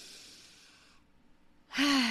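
A deep breath in and out during a guided breathing exercise: a soft, airy breath for about a second, a brief pause, then a louder, voiced sigh-like exhale.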